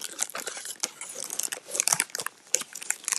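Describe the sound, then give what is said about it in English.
Crinkling wrapper and crunchy bites as Milka chocolate is bitten and chewed in an ASMR-style recording. Sharp crackles and snaps come in uneven bursts with soft chewing between them, and there is no talk. “I bought chocolate today. It's, like, the good kind. I really like Milka.”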